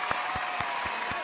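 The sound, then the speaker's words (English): A canned clapping sound effect played by a host. Dense, steady crowd applause fills the whole moment over a soft, regular low pulse, with no voices. “Play the clapping. I'll play it.”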